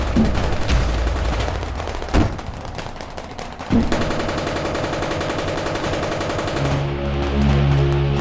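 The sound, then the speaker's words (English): Tanks fire their guns at an approaching ship: several heavy blasts burst through continuous rumbling gunfire, and a steady low tonal drone takes over near the end. “They fired at the approaching ship. No! We all jumped to the ground and covered our ears as the tanks held their ground.”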